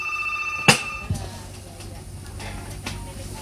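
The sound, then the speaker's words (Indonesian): A telephone ringing with an incoming call, a brief electronic ring cut off by a sharp click, followed by faint low hum and line noise. “Tapi saya coba terima dulu ini penelponnya”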